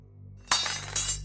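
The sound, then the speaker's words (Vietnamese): A knife falls onto the ground, giving two sharp, bright clattering impacts about half a second apart over a steady low hum. “Tiếng cây dao rơi xuống mặt đất”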